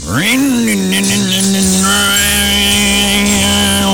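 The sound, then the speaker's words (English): A human voice imitates a chainsaw with a loud, continuous buzzing drone. The pitch climbs at the start, then holds steady for about four seconds. “and that sound like a chainsaw?”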